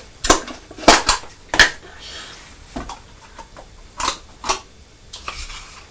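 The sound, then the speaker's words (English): A knife spreads butter on bread in a series of short, scratchy strokes and clicks. Bursts come in quick uneven succession, some louder, with quiet gaps between. “Here we are, spreading the butter.”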